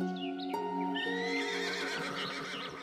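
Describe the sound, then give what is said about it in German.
Horses neigh in a mountain meadow pasture beside a fence, where brown, black and white horses trot over. Faint whinnies rise and fall in wavering sweeps, with light hoof clip-clop underneath. “Neugierig kommen die Tiere an den Zaun getrabt, als du an der Weide entlang spazierst.”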